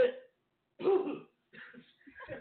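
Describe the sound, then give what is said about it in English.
Harsh coughing and throat clearing from a man, in a few rough bursts separated by short pauses. The first two bursts are strong and the later ones are more broken up. “And I just coughed up a hairball”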